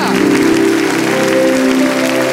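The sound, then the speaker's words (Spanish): Thunderous applause from a large crowd at a religious celebration, dense and steady clapping that stays loud and unbroken from start to finish, with crowd noise mixed in. “que se escuche ese aplauso. Que tiemble River, que sea el mayor aplauso de la historia.”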